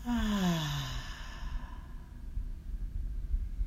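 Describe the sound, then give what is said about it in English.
A deep breath out during a guided breathing exercise: a voiced sigh with a falling pitch, then soft, breathy air that continues quietly and unhurried. “And our third breath in together. Breathe in and out.”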